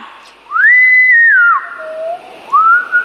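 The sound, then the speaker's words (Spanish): Cheerful whistling carries a short, bright melody of sliding notes: a rising note held high, a dip to a lower tone, then another upward glide, clear and alone. “Silbó con alegría.”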